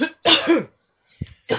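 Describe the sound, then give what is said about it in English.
A crowd at a religious service coughs on request, with a few harsh, separate cough bursts and short silent gaps between them. “Cough it out. Cough the spirit. Everybody take a deep breath and cough.”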